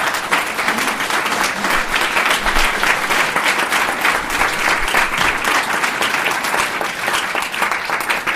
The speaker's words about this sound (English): If you can put your hands together and welcome everybody.